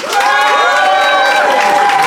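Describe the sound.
A studio audience votes for one side of a debate by making noise: a loud, sustained crowd sound with cheering voices holding tones, steady from start to end.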